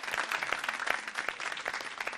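Applause from an audience as team points are announced at a quiz show: dense, steady clapping that continues evenly throughout, with no talk.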